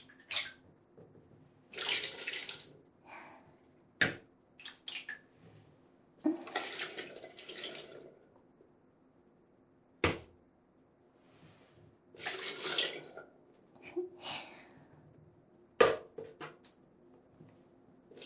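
Hot water runs and splashes during a bath in irregular bursts, several pours of a few seconds each separated by quiet gaps, with no talking.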